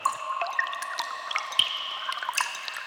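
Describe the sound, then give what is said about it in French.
Water drips down the damp walls of a cave, many faint, scattered plinks and drops falling at irregular intervals over a steady, tonal background. “Dans la grotte, il fait humide. Les parois de la grotte ruissellent.”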